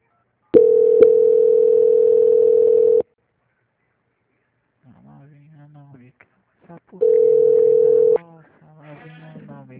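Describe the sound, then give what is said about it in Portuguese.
Steady telephone tone plays while a bank call is transferred and put on mute: a long, flat, mid-pitched tone of about two and a half seconds, then a shorter repeat of about a second. A voice is heard between the two tones and after them. “Eu agora vou transferir a ligação para a auditoria do banco. A ligação vai ficar no mudo só por um instante”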